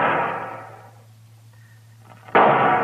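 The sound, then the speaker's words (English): Rifle shots from a Sharps rifle fired at spaced intervals as a signal for help: a loud report dies away slowly, then after a long pause a second sharp, loud shot cracks out. “What's he shooting at now? Mr. Dillon, the way he's spacing them shots. Yeah, that's a signal for help”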